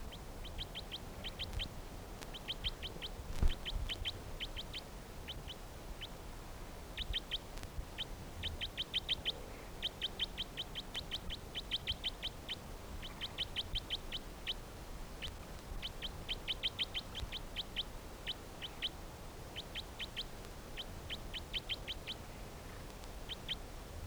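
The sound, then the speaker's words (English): Bird calls in a field recording: many short, high chirps in rapid bursts repeat throughout over a steady low background rumble. “Recording the bird 321 again.”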